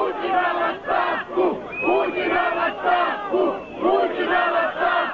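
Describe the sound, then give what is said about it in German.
A protest crowd in Kaliningrad chants loudly and rhythmically for Putin's resignation, with the same phrase repeated tirelessly in steady, forceful waves of many voices. “Werft Putin raus! Russland ohne Putin, skandiert die Menge unermüdlich.”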